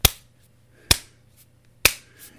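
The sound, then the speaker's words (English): Slow, exaggerated clapping from a woman leaning back: three sharp, evenly spaced claps about a second apart, each standing alone over a faint low hum. “She began to clap, slowly, exaggeratedly, as she leaned back comfortably.”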